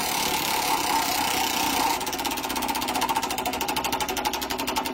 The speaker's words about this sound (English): We'll spin the wheel one more time.